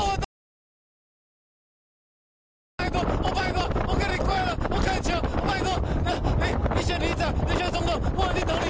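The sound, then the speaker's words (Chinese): Strong wind buffets a paraglider in flight over a valley in Taitung, a loud, dense roar across the microphone after a brief silent gap, with a voice faintly audible beneath it. “只是空中风向难预料，强风一吹，飞行伞摇摇晃晃，让他喊得更加凄惨。”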